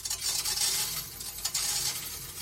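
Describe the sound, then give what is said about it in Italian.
Household coins jostled in a mystery-sound guessing game: dense, continuous metallic rattling and jingling with a few brighter clinks, no talking. “Hai cambiato tutte le monete che avevi in casa, sì, da mettere sul conto in banca? È sì!”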